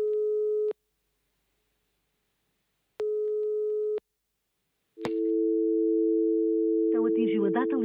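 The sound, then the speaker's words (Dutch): A telephone ringback tone sounds during a call. Two steady, mid-pitched beeps are separated by silence, and then a long unbroken tone sounds at a similar pitch. The tones are clear and fairly loud. “Even Doc bellen, want misschien weet hij wat antwoorden.”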